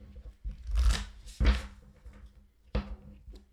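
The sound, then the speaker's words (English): Tarot cards being shuffled and drawn: a few quick papery riffling bursts with short quiet gaps between them, and no talk. “Let me pull some cards.”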